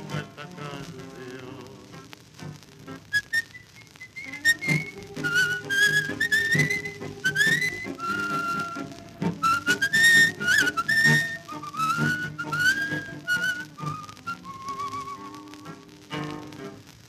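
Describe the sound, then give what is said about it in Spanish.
A person whistles a tune within a song, a clear, high, wavering melody of many held and gliding notes over soft instrumental backing. “y un reo meditabundo va silbando”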